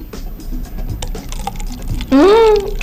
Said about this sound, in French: On entend plus le plastique que le liquide.